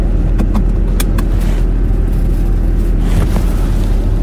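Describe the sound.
A car being driven to work, heard as a steady low road-and-engine rumble that runs throughout, with a few brief faint ticks above it early on and no talking.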